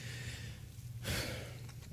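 A single brief deep breath, taken during a quiet pause for prayer at a church service, heard faintly as a short airy rush over a steady low hum.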